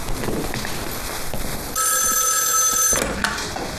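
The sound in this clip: Telephone bell ringing in one continuous, bright metallic burst of about a second over steady background noise, then cutting off.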